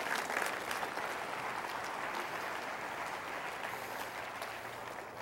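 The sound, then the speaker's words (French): A church audience gives a sustained ovation of dense, steady applause that holds at an even loudness from start to finish. “Il me délivre. Il me glorifiera, il me fera voir son salut. Et quel que soit votre âge, j'exige un amen et une ovation ce matin.”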